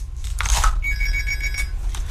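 Telephone ringing with one bright electronic ring burst of steady, high tones lasting under a second, over a low background hum.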